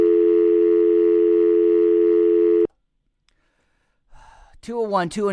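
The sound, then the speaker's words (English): A steady, droning telephone tone as a caller's line drops, holding evenly for a few seconds before cutting off abruptly into silence, after which a voice begins speaking. “I think that call just dropped.”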